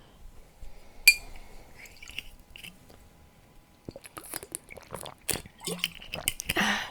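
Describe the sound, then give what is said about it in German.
A person takes a sip of a drink: one sharp click, a quiet pause, then a cluster of wet mouth clicks, slurps and swallows, fairly faint and without talking. “Vorher trinke ich einen Schluck.”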